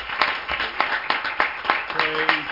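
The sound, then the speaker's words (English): Church audience clapping hands in praise, a series of evenly spaced, rhythmic clap bursts in unison, with a voice briefly heard near the end. “Let's give the Lord that hand clap of praise.”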